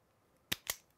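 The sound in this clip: Two quick, sharp snips of wire being trimmed with a cutter, faint and crisp, spaced a fraction of a second apart with quiet around them.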